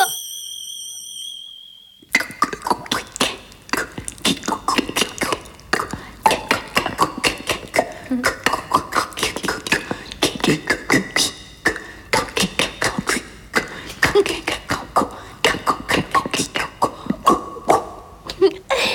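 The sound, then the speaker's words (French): Wet shoes squelch in water on the floor, producing many quick, squishy wet smacks in a fast, uneven rhythm. A brief high wavering tone comes first, and then a short pause follows before the squelches begin. “Ah, mes chaussures sont toutes mouillées, faut que je les enlève, moi. Et comment elles chantent, tes chaussures, dans l'eau?”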